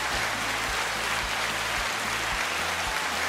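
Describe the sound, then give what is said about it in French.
An applause sound effect gives a steady, dense wash of clapping at a modest level, even and unbroken across the whole stretch. “C'est pour ça que t'as mis les applaudissements.”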